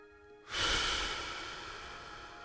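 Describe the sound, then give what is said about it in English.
A single slow, deep abdominal breath rises suddenly after a brief quiet moment, then tapers off gradually as a long, soft airy rush. “Let's start by taking a few slow, deep abdominal breaths. Inhale. Exhale.”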